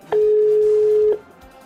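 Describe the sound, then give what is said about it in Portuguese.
A telephone ringing tone sounds as a call is placed: one loud, steady, mid-pitched beep lasting about a second, with quiet before and after it. “Chamando. Tá chamando.”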